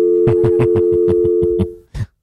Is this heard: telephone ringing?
yes